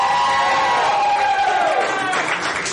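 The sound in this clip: Live show audience section cheering, whooping and making loud noise for a performer, a dense continuous roar of voices with higher shouts, easing slightly toward the end.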